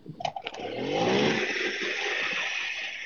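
A small motorbike engine runs in gear: a few sharp clatters at first, then a buzzing, revving drone that builds and holds steady to the end.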